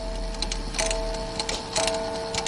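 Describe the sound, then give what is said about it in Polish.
Small carriage clock ticking once its case is opened: a steady run of crisp, light mechanical ticks in an even rhythm, alone without voices. “Zegar powozowy, inaczej karetowy. To taki mały zegar, tam to była szafa, mały. A tutaj to malutki. Tak, maleńki. Tu zaraz tylko otworzymy i proszę posłuchaj.”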